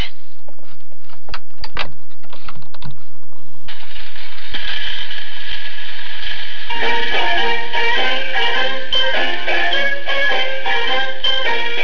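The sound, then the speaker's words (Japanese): A 78 rpm record plays on a gramophone: loud mechanical ratcheting clicks come first, then hissing surface noise, and after a few seconds a crackly Japanese bon-dance song enters. “蓄音機の78回転で”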